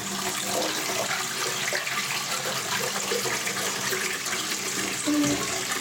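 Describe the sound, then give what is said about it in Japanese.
Rushing water from a toilet being flushed with a nearly clogged bowl, a steady hissing wash with a brief louder gurgle near the end. “詰まりそうなぐらい便器にある。ちょっととりあえず一回流すね。”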